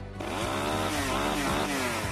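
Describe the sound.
A chainsaw engine starts abruptly and buzzes loudly and steadily, its revs wavering up and down in a few surging pulses throughout.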